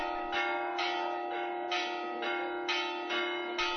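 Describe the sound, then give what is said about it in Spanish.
Church bells of the Iglesia de la Victoria in Jimena pealing on Palm Sunday as a procession leaves the church: bright strikes about every half second in a steady, regular rhythm, each ringing on into the next. “Así sonaban las campanas de la Iglesia de la Victoria en el momento en el que por la puerta del templo salía la imagen de Jesús en su entrada triunfal, la conocida como Borriquita.”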